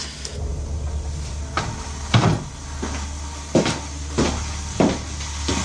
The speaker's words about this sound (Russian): Извините, я дверь прикрою?